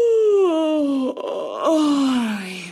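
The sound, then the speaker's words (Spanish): A human yawn voiced as a long groaning moan that slides steadily downward in pitch, briefly breaks off, then swells again and falls away to a low, drawn-out sigh. “Otra genialidad que se le ha ocurrido al cuerpo es bostezar.”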